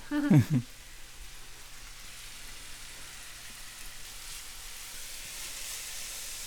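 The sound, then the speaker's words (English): Minced onions with a pinch of salt sizzle in a pan, a soft, steady frying hiss that runs throughout after a brief voice at the start. “And into that, I'm also going to add in our minced onions. Also going to add a pinch of salt.”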